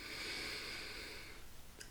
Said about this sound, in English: And now for our last one. Inhale through your nose.